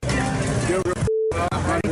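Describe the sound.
A single censor bleep, a flat, steady mid-pitched tone lasting about a fifth of a second, cuts into loud male speech that drops out completely around it.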